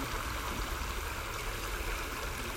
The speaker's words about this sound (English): So we'll be quiet and just listen to the stream